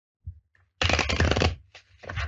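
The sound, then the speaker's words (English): Oracle cards being shuffled: after a soft tap, one dense papery riffle, a brief pause, then a shorter second riffle, all quiet. “I'm just pulling some Oracle cards here to see what additional message spirit has for you about this”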